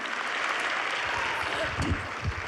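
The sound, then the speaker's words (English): Audience applause at a live evening gathering: dense, steady clapping that fills the whole stretch, with a few louder swells and faint voices mixed in underneath. “Can we give Robin a huge round of applause?”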